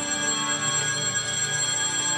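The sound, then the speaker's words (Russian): An electric bell rings as the third bell before a theatre performance. Its bright, buzzing tone is sustained and unbroken for the whole stretch. “Мама, что это такое звонит? А это третий звонок.”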